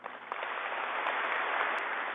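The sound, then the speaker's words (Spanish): Audience applause for the public security forces during a speech, a continuous, evenly dense wash of clapping without distinct individual claps. “Para la Fuerza Pública, un aplauso grande.”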